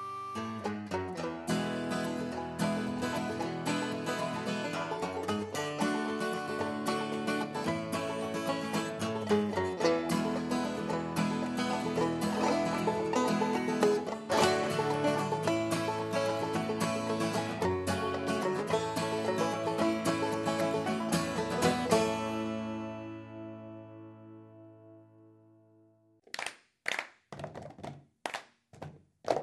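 A rhythmic cup game: cups tapped and thumped in a quick pattern of a few sharp, hollow knocks, heard alone after a long stretch of dense music fades away.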